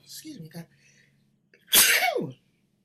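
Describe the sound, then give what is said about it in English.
A single loud sneeze bursts out as a sharp, breathy blast that fades within about half a second, following a few brief, quieter vocal sounds. “had to sneeze there.”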